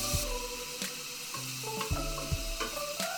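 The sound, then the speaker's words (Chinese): Scallops and squid sizzle slowly in a pan over medium-high heat, a steady, quiet frying hiss broken by a few light stirring knocks. “然后海鲜的话再让它慢慢的煮。嗯，开始有干贝跟中卷的香气。”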